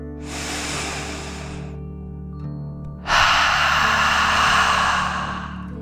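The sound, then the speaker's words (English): One deep breath during a calming bedtime meditation: a soft, airy inhale, a pause, then a longer and louder whooshing exhale, all over a quiet, steady background tone. “take one more deep dragon breath. In and out.”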